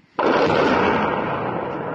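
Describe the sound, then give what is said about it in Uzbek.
An explosion near Bakhmut, from a video released by Ukraine's 93rd Mechanized Brigade: a sudden loud blast breaks the quiet, then a heavy, broad rumbling roar sustains and slowly eases. “Ukrainaning 93-chi mexanizatsiyalashgan brigadasi Bakhmut atrofidagi bir nechta portlashlar aks etgan videoni e'lon qildi.”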